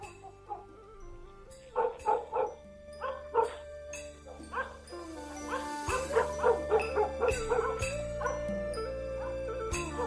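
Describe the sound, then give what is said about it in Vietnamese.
Dogs barking in a village at night: many sharp barks and yips in irregular bursts, overlapping and growing denser and louder through the second half. “tiếng chó ở trong làng lại cắn lên nhấm nha nhấm nhặng.”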